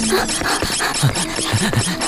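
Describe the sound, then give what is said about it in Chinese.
An electric drill bores into a door, a continuous rasping, grinding noise with scraping texture and short squealing tones breaking through, loud and steady throughout without any talk. “这不电钻都打来了， 他就要破门而入了”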